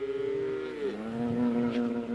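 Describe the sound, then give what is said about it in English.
A cow lowing on a farm where dozens of cattle graze on rye grass on a windy day: one sustained, fairly loud moo whose pitch dips partway through and then holds steady. “On a windy day, dozens of cows are grazing on rye grass.”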